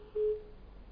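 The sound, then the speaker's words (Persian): A disconnected phone call's busy tone sounds as a single short, steady mid-pitched beep over low line hiss. “ظاهرا قطع شد.”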